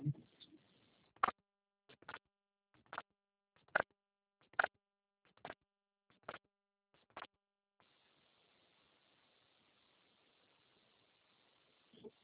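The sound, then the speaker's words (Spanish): Keypad tones sound as a number is entered on an automated phone service. Eight short, evenly spaced beeps come about a second apart, followed by a low steady line hiss. “Voy a marcar mi número.”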